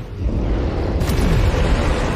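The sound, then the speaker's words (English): An energy blast explodes against a rooftop during a superhero battle on a locked-down city street, with a continuous low, rumbling roar and a sharper crackling burst about halfway through. “Parasite continues to breathe purple fire at a dodging Superman.”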